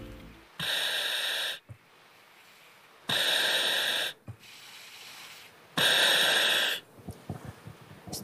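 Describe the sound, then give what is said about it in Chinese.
Breathing through a firefighter's breathing apparatus worn with a full firefighting suit: three long, loud hissing breaths, each about a second, evenly spaced with soft clicks and faint valve noises between them. “我只想给大家听一个声音，就是他现在戴上这个呼吸机时候的声音，我们来听一听啊。”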